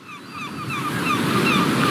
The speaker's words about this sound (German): Die Nordsee. Am Horizont fahren Schiffe, Windräder von Offshore-Anlagen drehen sich.